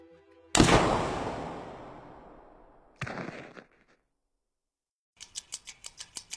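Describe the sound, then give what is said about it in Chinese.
A sudden gunshot: one loud, sharp bang with a long fading tail, followed by a shorter second burst, then a quick run of evenly spaced clicks. “正在此时，一声突如其来的枪响，阿喜应声倒地。”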